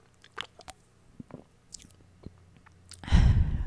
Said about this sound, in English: I need a bubbler drink break.